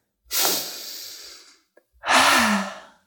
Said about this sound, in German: Lass uns beginnen mit einem tiefen Atemzug